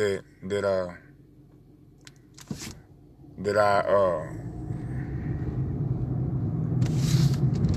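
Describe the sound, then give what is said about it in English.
Low rumble of a car driving on the road, with engine and road noise swelling steadily through the second half after a few brief bursts of a man's voice at the start. “I'm driving. This motherfucking car's on my ass”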